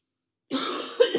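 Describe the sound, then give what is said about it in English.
A single raspy cough from a person who is talking about hair products, a short harsh burst that ends in a couple of quick throat-clearing pulses. “I know that's annoying to hear somebody coughing.”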